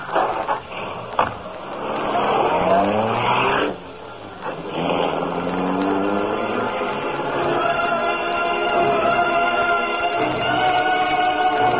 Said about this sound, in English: Now let's get out of here. We're not through. Kitty Smith is still in that sanatorium. I'll take the wheel. Get in, kiddo.